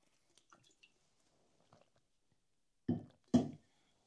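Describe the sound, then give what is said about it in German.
A person drinks, making two soft gulping swallows near the end. Before them come faint small clicks and wet mouth noises, and the whole clip is quiet. “Ich muss noch mal was trinken.”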